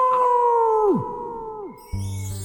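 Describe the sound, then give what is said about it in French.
A voice imitates a big bad wolf's howl: one long, sustained tonal wail that holds steady and then drops in pitch at its end, heard alone. “pour la taquiner, il lui fait peur en imitant le cri du grand méchant loup”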